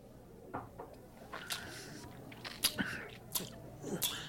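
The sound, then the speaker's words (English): Whiskey being sipped and tasted: several soft slurps and sharp, wet lip smacks spaced irregularly over a few seconds, with no talk over them. “Now, when you take a taste of this particular whiskey, which I am about to do, I found it to be amazing.”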